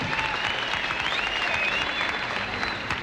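An audience at the Grand Ole Opry applauds to welcome a guest star, a dense, steady wash of clapping that stays loud and even throughout.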